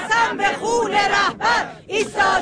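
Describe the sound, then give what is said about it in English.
Women chant slogans in unison at a funeral procession in Mashhad, with short, loud phrases of massed voices rising and falling in a steady rhythm, separated by brief gaps. “And that is the sound of women chanting, "I swear by the blood of the Supreme Leader, we will stand firm until the end. Death to America."”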